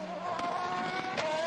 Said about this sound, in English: side by side action and contact at Rivazza 2.